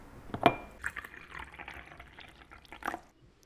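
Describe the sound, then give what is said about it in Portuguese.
Coffee being poured: a sharp clink comes first, then a steady liquid trickle runs for roughly two seconds before tapering off. “entra, não repara a bagunça, se acomoda e pera aí que eu vou te buscar um cafezinho.”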